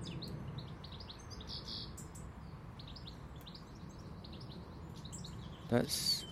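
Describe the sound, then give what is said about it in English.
A bird that is not a blue tit calls in many short, high chirps repeated in quick bursts, faint over a steady background hiss, with a louder burst near the end. “It's not a blue tit. It doesn't sound particularly blue tit-ish. Is that a word? No, I'm trying to see, because there's one calling to the other one.”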